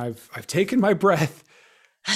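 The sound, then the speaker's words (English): A person takes a soft, audible breath in a short pause between stretches of speech, a brief airy inhale before talking resumes. “I've taken my breath.”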